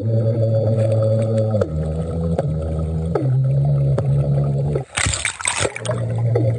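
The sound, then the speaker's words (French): Beatboxing underwater at a beach in Thailand comes through as muffled, droning vocal tones that shift pitch in steps, broken by a burst of splashing before the low humming returns. “Le mec, il est dans l'eau, sur une plage de Thaïlande, peinard, et il fait du beatbox sous l'eau.”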